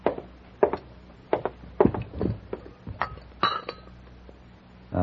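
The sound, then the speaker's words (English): A teaspoon clinks against a coffee cup as sugar is stirred in, giving many sharp, light ringing taps at an uneven rhythm. The clinks are fairly quiet and heard alone. “You take a half teaspoon of sugar, don't you?”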